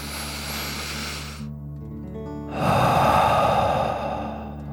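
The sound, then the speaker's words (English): A deep breath drawn in and then blown out through the mouth: a soft, brief inhale followed by a louder, longer, rushing exhale, over a faint, steady sustained tone. “Deep breath in and out.”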